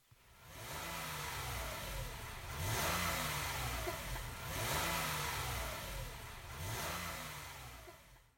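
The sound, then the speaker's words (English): A car engine revs as the gas pedal is pressed: a few repeated swells of a mid-pitched engine drone, each climbing in pitch and then easing back, heard alone without talk. “The sound of stepping on the gas pedal or the accelerator pedal sounds like this.”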